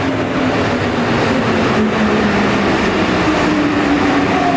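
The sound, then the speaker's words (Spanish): A subway train passes a metro platform with a loud, continuous rumbling roar and a faint steady tone running through it. The noise stays constant throughout, with no voices. “Lo envió la Vicky un video que está esperando el metro. Hágale dedo para que pare. Va muy rápido.”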